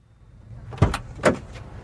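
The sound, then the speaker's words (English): A police truck door being opened: two main dull knocks and clunks of the latch and door against a low background rumble, with a few fainter rattles around them, and no talking. “Chip is sitting alone in the back of a police truck when Corey approaches. Corey looks in at Chip, then opens the door.”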